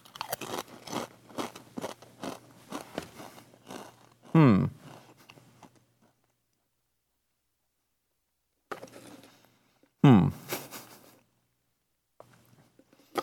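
Crisp crunching and chewing of onion ring flavoured Pringles crisps: bursts of crackly chewing separated by silent pauses, with two loud, sharp bites standing out.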